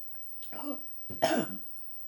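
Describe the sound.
Throat clearing and coughing from a person still recovering from the flu: two rough, raspy bursts in quick succession, fairly loud, with no talk around them.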